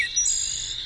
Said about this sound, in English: That's the song of the wood thrush.